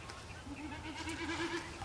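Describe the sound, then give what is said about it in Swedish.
A common snipe's display winnowing: a tremulous, bleating hum made by air rushing over its spread outer tail feathers. It holds steady and wavers throughout, pulsing in quick waves at moderate loudness. “Horsjök kallade man den förr. Och det där hors, det skulle tydligen ha med horse, alltså häst att göra. Apropå det gnäggande lätet.”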